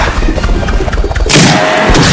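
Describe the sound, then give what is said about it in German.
A boomerang strikes a knight and tears his head off, heard as a sudden loud, heavy crashing impact about halfway through that stays dense and noisy, after a busy, rumbling, crackling bed of low thuds. “Die Waffe hatte einem der Ritter den Schädel vom Rumpf gerissen. Während der Kopf langsam nach vorne kippte und auf die Straße fiel, flog der Boomerang zurück in meine Hand.”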